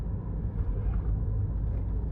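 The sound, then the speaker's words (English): Inside a car driving down the road, a low steady rumble of road and engine noise holds at an even level throughout, with no talk. “As you tell, I might be driving down the road.”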